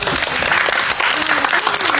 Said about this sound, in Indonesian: Beri tepuk tangan untuk teman kita.